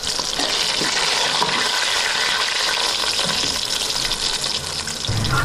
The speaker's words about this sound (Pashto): په داسې وخت کې مرکه کړې چې مرخیری یې پخول